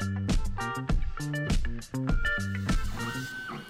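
Whining motor tones from a 3D printer at work, stepping through a run of distinct pitches in short, sharply started bursts, fairly loud and with no talk.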